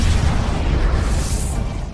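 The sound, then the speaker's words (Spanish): Deep, roaring explosion effect depicting a supernova, the colossal blast of a dying star: a loud, dense rumble that fills the whole clip without a clear start or break, with no voices. “Una supernova es la colosal explosión de una estrella al final de su vida. Sencillamente hace... ¡Bam!”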